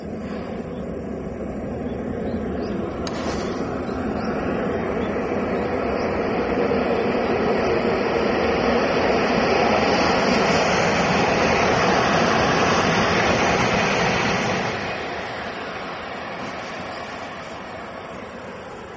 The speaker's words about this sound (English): it is a very smooth ride, except for when another train passes you or you enter a tunnel, which sounds like this.